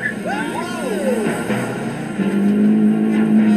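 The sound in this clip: A Renault car on a timed run. A steady engine drone runs under people talking and grows slightly louder and fuller toward the end.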